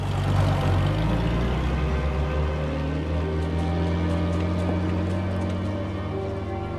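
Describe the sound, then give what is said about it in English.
A truck drags the Volkswagen Beetle Herbie backwards out into the desert, its heavy engine droning low and steady with a constant rumbling hum that fades slightly toward the end. “Trip pats Herbie's roof before climbing into the truck. Herbie looks forlorn as he is dragged backwards out into the desert.”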